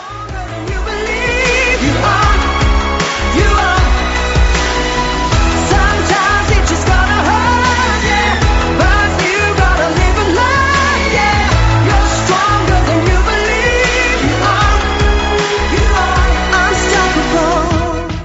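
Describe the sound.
A pop single with a full, dense arrangement plays continuously at steady loudness from start to end, with layered melodic lines over a sustained low end and no pauses.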